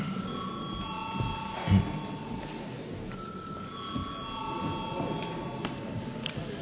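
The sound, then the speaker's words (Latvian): A bell rings in a parliament chamber to call members to a vote, giving steady sustained tones at a fixed pitch over a low background hum. “lūdzu zvanu.”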